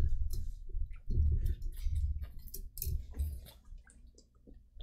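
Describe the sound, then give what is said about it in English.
Beer chugged right into a microphone: many wet, gulping swallows with clicks and squishy mouth sounds in an irregular rhythm, heard alone. “There's your ASMR, guys. Beer chug in the mic.”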